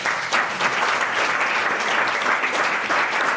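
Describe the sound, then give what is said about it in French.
A studio audience applauds, a dense, even wash of clapping that stays at a steady loudness from start to finish. “On peut applaudir toutes ces belles définitions.”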